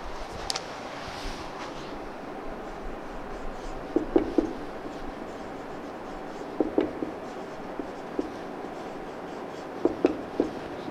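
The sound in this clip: Handwriting with a pen or pencil produces a few short clusters of soft scratching strokes, separated by quiet pauses over a faint background hiss, with no talking.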